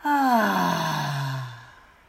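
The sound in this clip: A deep breath out during a guided breathing exercise, released as one long voiced sigh that falls in pitch and fades away over about a second and a half.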